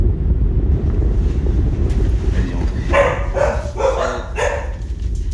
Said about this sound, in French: Ciel gris, plafond bas, mer agitée.